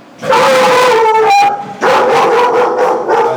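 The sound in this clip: A dog gives loud, drawn-out yelping howls in two long bursts, its voice wavering in pitch, with no talking over it.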